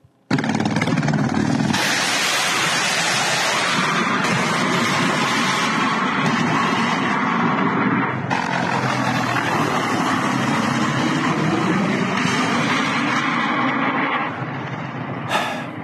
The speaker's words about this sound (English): And Russian helicopters in attack mode. I've never seen this before, but they both have a nose-up attitude when they fire their missiles. Take a look at this.